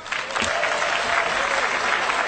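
Applause at an African Union summit welcoming Rwandan President Paul Kagame as the body's new chairman: a brief, steady wash of many hands clapping at even loudness, with no talk over it.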